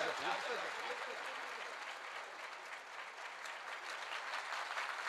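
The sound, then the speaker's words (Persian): Audience applause at a religious gathering: continuous, dense hand clapping that holds steady for about five seconds, with a voice faintly audible over it at the start. “بزن کف بزن.”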